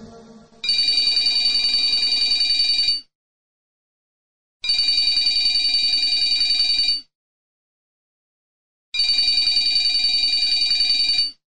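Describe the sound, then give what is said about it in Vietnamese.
A telephone rings insistently and loudly. Three long bursts of bright, buzzing ringing, each lasting a couple of seconds, are separated by silent pauses, with no voices. “Tiếng chuông điện thoại dồn dập vang lên”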